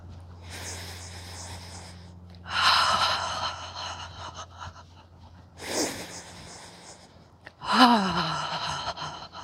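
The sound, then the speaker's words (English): Breathing during a yoga practice: nasal inhales followed by audible open-mouthed 'ha' exhales. A few soft, airy breath cycles rise and fade, and the last exhale carries a voiced sigh that falls in pitch. “So you can inhale through your nose and exhale with a ha.”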